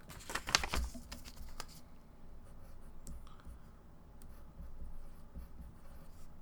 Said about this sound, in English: let me write that down. Yeah, Hold on.